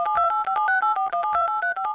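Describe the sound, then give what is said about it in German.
Telephone tones sound as a call is placed, a quick run of many short, clear, steady-pitched beeps separated by brief gaps, loud and alone without any voice. “Ich telefoniere mit einer Richterin.”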